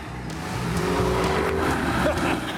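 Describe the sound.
A car with a V6 engine accelerating hard on an empty street, a loud, steady engine roar that holds throughout with no break.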